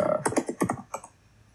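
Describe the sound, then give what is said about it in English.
A computer keyboard is typed on in a quick burst of several crisp, fairly faint key clicks, then falls quiet. “Sorry. I'm typing as I'm going through this.”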